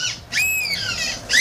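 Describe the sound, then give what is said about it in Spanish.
People imitating seagull calls: a few shrill, squawking cries in quick succession, each bending up and then down in pitch, loud and harsh, with brief gaps between them. “Es una gaviota, imitadores, ¿no? Estos son todos tíos y tías ahí imitando gaviotas.”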